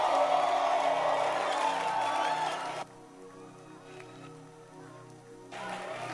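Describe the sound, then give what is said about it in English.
Applause and cheering from a church audience welcoming a singer, a dense, steady clatter that cuts off abruptly to a sustained held tone, then briefly swells again. “I want you to put your hands together. Let's welcome Frida to bless us with a song.”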